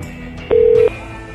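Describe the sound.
A single steady telephone tone sounds as a call is dialed, one clear mid-pitched beep lasting under half a second over a low background hum.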